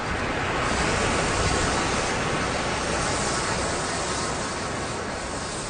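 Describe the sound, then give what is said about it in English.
Steady scraping hiss of a rake dragged through wet, dark gray sand in the low-tide area of a beach. The coarse, even rushing noise holds at a constant level throughout, with no talk. “And that's the sound of the rake going through the sand.”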